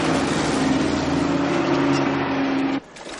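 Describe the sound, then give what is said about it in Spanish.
Trucks loaded with cooking pots drive out of a factory, making a steady, loud engine drone over a low hum that cuts off abruptly near the end. “De la fábrica salen camiones cargados de cacerolas.”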